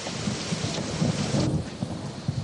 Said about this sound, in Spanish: Por la noche, un coche guarda bajo la lluvia.